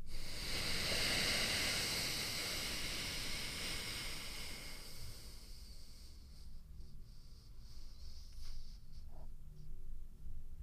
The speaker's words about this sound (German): Du hörst schon, am Ende drücke ich noch wirklich nach und atme ganz, ganz, ganz tief aus.